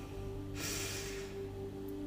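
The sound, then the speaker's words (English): A deep breath in during a guided relaxation, a soft airy hiss lasting under a second, faint over a steady low hum. “taking a deep breath in”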